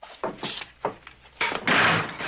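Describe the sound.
The door of a flat is opened, heard as several separate knocks, thumps and scraping bursts of varying loudness, ending in a longer, brighter rush of noise.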